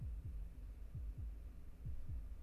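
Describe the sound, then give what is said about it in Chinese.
Heartbeat sound effect of muffled, low thumping lub-dub pairs, three double beats at a steady pace over a soft, continuous hum. “心跳也加快了。”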